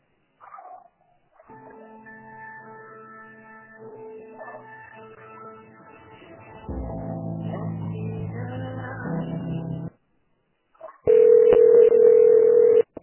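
Telephone line tones play while a call is being transferred: a soft tonal pattern, then a louder buzzy stretch, a brief pause, and finally a loud, steady tone.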